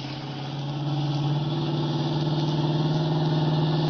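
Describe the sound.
A car engine runs hard during a chase, a steady mid-pitched droning roar that swells slightly at the start and then holds at an even, strong level.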